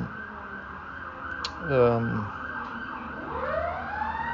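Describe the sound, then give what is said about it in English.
A siren wails outside, falling sharply in pitch in one loud sweep, then rising again more faintly a moment later, over a steady low background rumble. “there's something going on over there, some kind of siren.”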